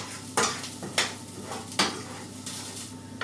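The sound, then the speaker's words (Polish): A spoon stirs buckwheat groats in a pan after water, balsamic vinegar and soy sauce are added, giving a few sharp scraping strokes over a soft, steady sizzle. “Przemieszam kaszę jeszcze raz.”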